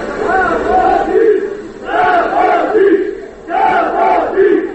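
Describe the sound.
A protesting crowd of farm residents outside a government building, demanding a meeting over leased land, shouts in loud unison, repeating the same chanted phrase three times in a steady rhythm.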